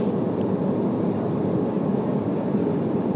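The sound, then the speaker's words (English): Steady cabin drone inside an airplane waiting before taxiing, a constant broad low roar and hum with no distinct events standing out. “So I'm going to record just until we've start taxiing.”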